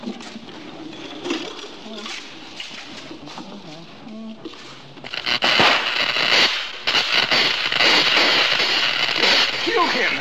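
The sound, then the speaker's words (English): Crackling from an electrical short circuit: a quieter stretch with a voice gives way midway to a loud, dense burst of sizzling crackles and pops that continues to the end. “No, I have not killed him. I have merely short-circuited him.”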